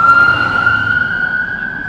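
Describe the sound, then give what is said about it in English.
A police car siren speeding through London, a loud, steady tone that creeps slightly upward in pitch over a low road rumble. “Wow, he's going fast. That was a police car here in London.”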